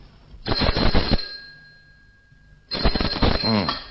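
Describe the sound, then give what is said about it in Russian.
A telephone rings twice at dawn in a stage-play recording: two loud, dense bell bursts, each under a second long, separated by a pause of about a second and a half. “На рассвете меня разбудил телефонный звонок.”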